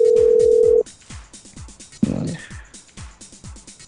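A phone call to a work number goes unanswered. One steady ringback tone sounds through the phone line and cuts off after under a second. A short burst and a run of quieter rhythmic thumps follow.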